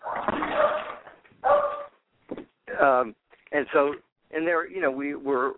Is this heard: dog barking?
yes